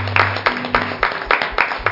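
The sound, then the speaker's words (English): A church audience claps in praise, loud rhythmic hand claps at about four beats a second over a low steady hum that drops away midway. “Let's give him a hand clap of praise.”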